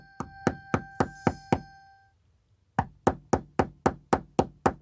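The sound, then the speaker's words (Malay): Knocking on the door of a house comes as two runs of sharp, evenly spaced raps. Six knocks, with a faint ringing tone behind them, are followed by a short silence and then eight more knocks, all fairly loud. “Tengah jalan tu dia ketuk lagi. Tuk tuk tuk tuk. Dia ketuk pintu rumah kami lagi.”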